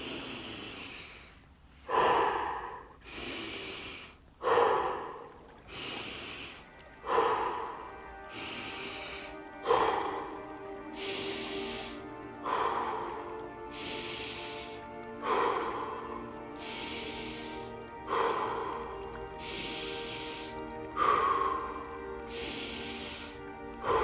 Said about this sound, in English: Take our first inhale. Exhale.